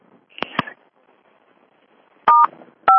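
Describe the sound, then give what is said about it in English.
Telephone keypad tones as a PIN is entered on a conference call line: a few short dual-tone beeps, two quick ones early, then louder, steadier tones after a pause, with no talking. “Please enter your PIN followed by pound.”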